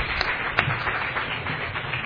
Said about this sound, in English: how about a round of applause for all three of them again?